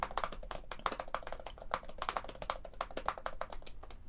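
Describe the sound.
An email being typed on a computer keyboard: many quick, irregular keystrokes in short bursts, quiet and crisp, with no talk over them.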